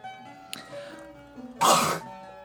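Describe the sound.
Throat clearing caused by a piece of beef jerky stuck in the throat: one short, harsh, raspy burst near the end, after a faint brief catch of breath earlier, with no talk.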